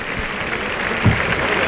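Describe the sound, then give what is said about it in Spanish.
A bullring crowd gives a sustained ovation to the Sevillian bullfighter Juan Ortega, with a dense, steady wash of applause that holds at an even loudness throughout. “Y ahí está la ovación para Juan Ortega, que saldrá a recibirla al tercio seguramente, o a la segunda raya.”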